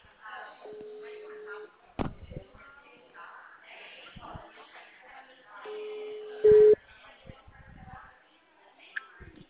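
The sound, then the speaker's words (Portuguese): Ringing tone of an outgoing video call: two long, steady, faint tones several seconds apart, beneath talk and light clatter. “Ó, vou te ligar de chamada de vídeo.”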